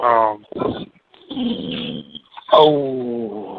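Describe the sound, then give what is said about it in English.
A dog growling and whimpering: several loud, whiny, moaning vocalizations with rough, rumbling growls between them, the last whine sliding downward in pitch. “This goddamn dog is bothering me right now.”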